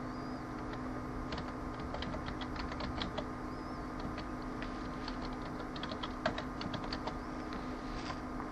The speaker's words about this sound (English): Now I need to type in my outgoing email server.